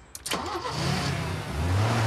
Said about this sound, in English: The car moves off